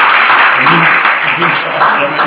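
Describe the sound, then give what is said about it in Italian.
Applause for a professor at a presentation on an urban green line project: a dense, steady, somewhat muffled patter of clapping that holds throughout, with a voice talking underneath. “tenterei di riscaldare l'ambiente con un applauso per il professore Sasso”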